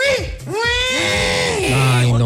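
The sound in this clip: A pig squeals after its tail is pulled, giving a few strained, high, wavering cries with short breaks between them, loud and close.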